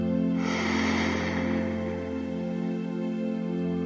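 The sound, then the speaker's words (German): A deep breath drawn in through the nose, airy and fairly loud, then a softer breath let out through the mouth, all over a steady low drone. “Atme noch einmal tief durch die Nase ein und lass die Luft aus deinem Mund wieder ausströmen.”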